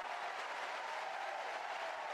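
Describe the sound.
A baseball stadium crowd reacts to a swing-and-miss on a breaking ball; a soft, steady wash of cheering and clapping with no talk over it.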